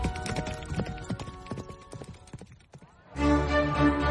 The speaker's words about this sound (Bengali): ঊর্ধ্বশ্বাসে ঘোড়া ছুটিয়ে দিল।